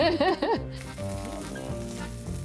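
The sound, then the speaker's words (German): Veal sizzles as it braises in a pan, giving a steady, dense crackling hiss. A brief voice is heard at the very start. “Und jetzt wird es schön geschmort.”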